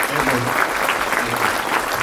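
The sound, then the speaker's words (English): Audience applause at Edgewood church as a guest speaker is welcomed, a dense, steady clatter of many hands that stays loud and even for about two seconds. “Put your hands together and welcome Mark.”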